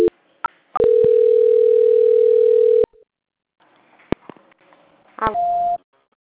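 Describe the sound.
A telephone call-transfer tone sounds as one long, steady beep of about two seconds, then a few sharp clicks and a shorter, higher beep.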